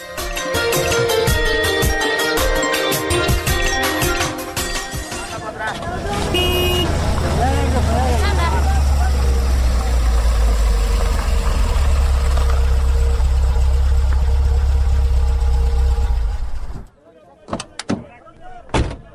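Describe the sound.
Car engine idling while the car is stopped to be searched: a low, steady rumble that follows some tonal, music-like sound, holds for about twelve seconds, then cuts off and gives way to a few brief knocks.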